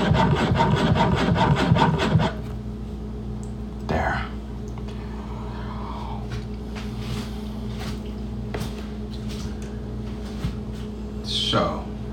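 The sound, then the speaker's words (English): A spoon stirs creamer into a drink with a quick run of rhythmic scraping strokes for about two seconds, then faint rubbing and a few scattered light taps. “the creamer gets in there, so I'm just taking a little extra time to stir it.”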